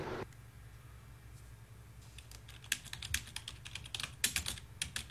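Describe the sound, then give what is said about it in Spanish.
Typing on a computer keyboard: after a quiet start, rapid, irregular keystroke clicks build up and continue, some taps noticeably louder than others. “Perdón, o hablo o escribo. No puedo hacer las dos cosas al mismo tiempo.”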